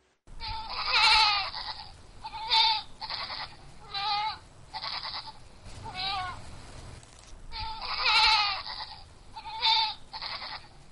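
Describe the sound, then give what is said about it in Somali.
Goats and sheep bleat in a village in northern Cameroon, where livestock is being handed out to young people. Many wavering, nasal calls repeat in uneven bursts. “mas-uuliyiinta dowladda ayaa riyo iyo ido u qaybinaya dhallinyarada ku nool tuulooyinka”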